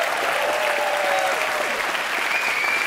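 Audience applause fills the hall at the Deutscher Kleinkunstpreis 2026 ceremony in Mainz, a steady, dense, loud clapping that holds at an even level throughout with no voices above it.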